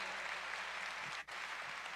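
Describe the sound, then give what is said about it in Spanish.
Faint, dense applause from an audience honoring long-married couples, an even, continuous wash of clapping broken only by a brief dip near the middle. “denme un aplauso porque pues de quién sabe cuántas personas aquí”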